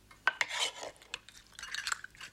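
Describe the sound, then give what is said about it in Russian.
Spoon clinks and scrapes against dishes as jam from a small jar is spread onto oatmeal porridge at a family breakfast table. A few sharp clinks stand out amid softer, brief scraping, with no voices. “Та открывает небольшую баночку джема, накладывает его на кашу.”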